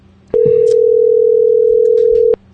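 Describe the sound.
A telephone dial tone sounds while someone dials into a conference call. It is one steady, unbroken tone lasting about two seconds, with faint noises behind it.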